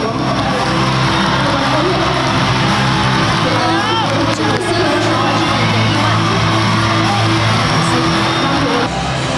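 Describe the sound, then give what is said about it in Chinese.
A crowd cheering for Chinese skaters at a short track speed skating race: a loud, continuous roar of massed voices with yells and whoops rising and falling throughout. “现场是此起彼伏的为中国选手加油的声音，现在韩国选手处于第1位。”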